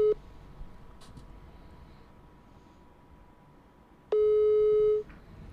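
Telephone tones on a call attempt: a short beep at the start, several seconds of faint line hiss, then a single loud, steady busy tone held for about a second before cutting off.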